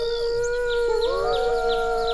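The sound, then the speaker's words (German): A wolf howling on an island at night: a long, sustained tonal howl, fairly loud and alone, with its pitch bending and wavering in the middle before settling again. “Es ist dieses Heulen, das unsere Freunde von der Insel vertreibt. Das ist ein Wolf.”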